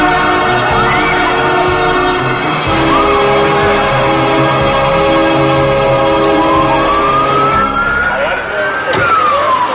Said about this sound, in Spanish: La calle de la iglesia se llena de ambulancias, coches de policía y periodistas.